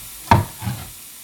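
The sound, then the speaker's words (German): Pre-roasted pistachios warmed in an empty pan give two brief, dry rattling scrapes, a sharper one followed by a softer one, with quiet between. “So, und jetzt noch in die leere Pfanne die Pistazien. Die sind ja schon geröstet, die muss man also nur kurz erwärmen, das reicht eigentlich.”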